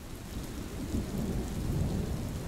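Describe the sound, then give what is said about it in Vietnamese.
Heavy rain and low, rolling thunder from a windy night storm over countryside, forming a continuous dense rumble and hiss with no sharp cracks, steady and fairly loud throughout. “Một mình lầm lũi bước đi giữa trời mưa gió, thân hình gầy gò của ông Thẩm nhanh chóng bị màn đêm nuốt trọn. Phía trên đầu ông, thi thoảng những tia sét lằng nhằng lại rạch ngang bầu trời sáng rực đánh xuống.”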